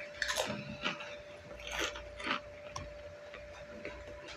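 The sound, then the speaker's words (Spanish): Someone chews and bites into an egg tart, making faint, soft crunches and mouth sounds in an irregular rhythm, with a steady thin tone running underneath. “Estoy comiendo una tarta de huevo.”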